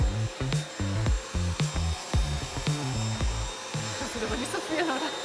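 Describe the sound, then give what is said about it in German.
A König vacuum cleaner in a test rig whines and drones as it sucks filling out of a tile joint. Its pitch pulses rhythmically as the nozzle is moved back and forth, under a man's narration. “Dreimal wird der Sauger hin und her bewegt.”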